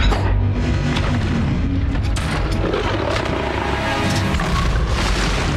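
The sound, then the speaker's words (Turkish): Explosions are picked up by a submarine's sonar as a loud, continuous deep rumble with a dense roar across the whole clip. The booms blend together rather than standing apart as separate blasts. “patlamalar tespit ettik”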